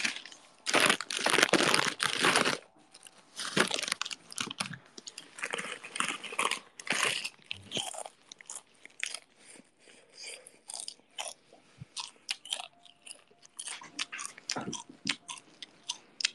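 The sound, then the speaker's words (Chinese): Potato chips being eaten, with crinkling of the bag and crisp crunching bites and chewing. Many sharp, irregular crunches follow one another, loud and dense at first and then more spaced. “来吃口薯片。”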